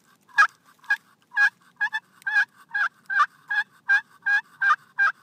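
Rapid turkey yelps made on a pot call, about a dozen sharp, raspy notes in a steady run, each stepping high then low, loud and clear with no talk.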